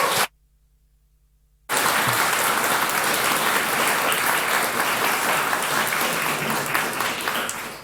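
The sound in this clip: A conference audience applauds to welcome a speaker: a short opening burst, a brief silent gap, then steady, dense clapping that holds evenly and thins slightly at the end.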